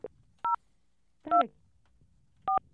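Three touch-tone beeps sound about a second apart as a phone number is dialed to a time-and-temperature hotline in Hartford. Each tone is short, clear and steady, with quiet between them.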